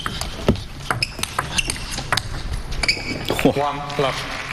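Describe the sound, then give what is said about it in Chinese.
A table tennis ball makes light, sharp ticks as it bounces on the table and off the bats during the serve and opening rally of a men's singles first-round match at the WTT European Grand Smash, under continuous commentary. “林诗栋和陈元宇。好，一起来欣赏一下这场比赛。林诗栋来率先发球。”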